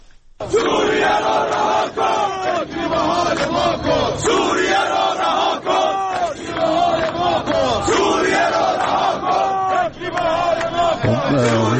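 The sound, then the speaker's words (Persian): Iranian steel workers of the national steel industrial group chant a protest slogan in unison in Ahvaz, a loud crowd of many voices shouting in a steady rhythmic cadence throughout. “اونها در اعتراض به وضعیت خودشون از جمله شعار دادن که به یک از شعارها گوش می‌کنید.”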